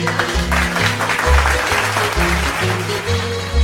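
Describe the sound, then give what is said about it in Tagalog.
Students clapping for themselves during a class lesson, a loud, continuous patter of applause running through the whole stretch over steady background music. “Palakpakan ang inyong mga sarili.”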